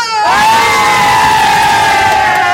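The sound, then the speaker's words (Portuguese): A large crowd of demonstrators roars at a national protest movement for culture: loud, dense cheering and shouting that continues without a break, with one voice holding a long, sustained tone above the mass of noise. “Eu tô aqui no meio dessa multidão maravilhosa para um país”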